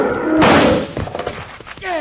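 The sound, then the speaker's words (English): Rifle gunshots fired at a charging animal in a radio drama: a loud heavy blast opens, followed by a few fainter, sharper reports in quick succession. “Yeah, that did it. Thanks, Bill. It took plenty of lead. I just got in the last shot.”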